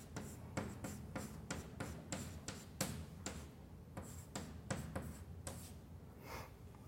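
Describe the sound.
Faint, quick scratching strokes of writing on a board during a maths lecture, with many short scrapes and taps in an uneven rhythm.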